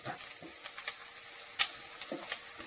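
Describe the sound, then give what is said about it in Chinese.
Onions sizzle in a frying pan as they turn translucent, a steady crackling hiss with scattered pops and one sharper crackle, no voices. “好，我们这个洋葱慢慢呢都要变成透明的了哈”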